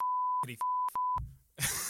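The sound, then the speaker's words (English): A censor bleep covers a swear word. A steady, pure electronic tone sounds in three segments, broken by brief clipped bursts, and a short noisy burst closes it out. “I'm going to have to bleep it, but it was just,”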